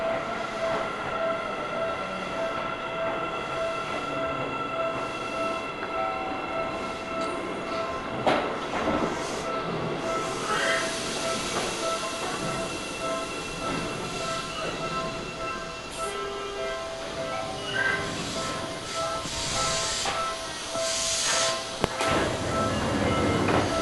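A Seibu Railway train running on the line between Honkawagoe and Ome-kaido, a steady loud rumble and rattle with a sustained whine and a few sharp clanks, with no voices.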